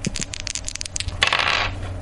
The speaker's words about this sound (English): we're going to roll the dice. You give me a number 1 to 6, and we'll decide who goes first